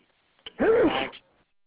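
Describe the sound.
A single sneeze: a faint click, then one loud, voiced burst with a rising-then-falling pitch that lasts about half a second, alone against silence.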